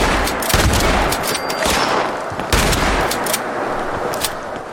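Shotgun fire in a horror-style video game, aimed at creepy enemies: several loud, booming blasts spaced irregularly over a few seconds, each with a short rumbling tail.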